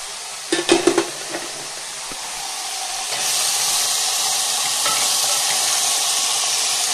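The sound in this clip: Spices and vegetables roast in a pan while a small wooden spoon stirs them. A few light clacks come early, then a loud, steady sizzling hiss swells at about three seconds and carries on to the end.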